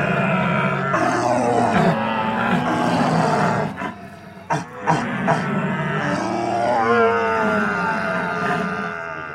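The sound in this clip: A man's voice imitates a stag's rutting bellow with long, deep, rough roaring groans that break off briefly in the middle and then swell again into a sustained, throaty call.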